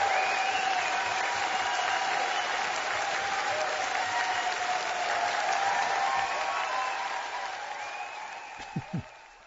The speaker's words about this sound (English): Well, it sounds as though the audience enjoyed that somewhat.